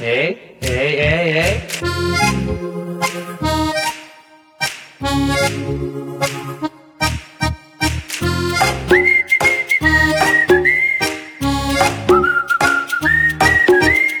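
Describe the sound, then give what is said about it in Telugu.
Whistled tune given on request during a playful exchange, loud and melodic, mixing quick notes with sustained ones and holding a steady high tone through the second half, with no talk over it. “హే, ఇంకొకసారి whistle అయ్యవా please please please.”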